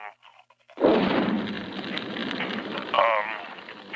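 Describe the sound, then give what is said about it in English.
Drapes catching fire, as a fire sound effect: a sudden loud whooshing roar of broad noise that holds steady for about three seconds, with a voice speaking briefly before and over it. “Now the drapes are on fire.”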